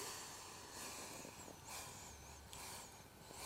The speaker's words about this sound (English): I'll give you an example of that now. So you're breathing in through the nose for 5,